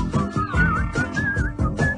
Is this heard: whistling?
yes